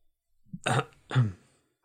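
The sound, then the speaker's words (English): Someone clears their throat in two short, rough, guttural bursts, the second slightly longer, set against near silence. “Just one of the servants clears their throat.”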